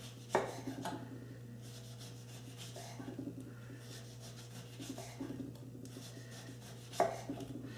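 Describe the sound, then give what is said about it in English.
A knife cuts thin slices in faint, soft strokes, with two sharper taps standing out over a steady low hum. “Then, very easy, you're gonna cut thin slice. Thin slices, this way.”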